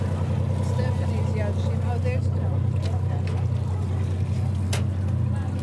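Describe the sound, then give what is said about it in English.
The engine of the schooner Blue Star runs at the dock, a steady low drone with a constant hum and no clear change in level, with faint voices behind it. “I'm on the center dock here behind Blue Star and Red Jacket. It's Blue Star you hear running. Oh, they're both on.”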